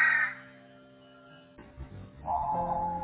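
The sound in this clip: A crow cawing, with one loud harsh caw at the start and a longer, steady caw near the end, separated by a quieter stretch with low rumbling.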